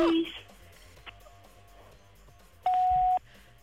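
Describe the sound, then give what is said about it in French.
Answering-machine beep, a single loud, steady electronic tone lasting about half a second near the end, preceded by a short tone at the start and quiet low rumbling in between. “Ça va être le répondeur.”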